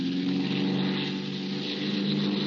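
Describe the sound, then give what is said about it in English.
Airplane engine running at dusk as the plane circles an unlit airfield, giving a loud, steady, buzzing drone with an even level throughout and no voices. “Jazz the motor”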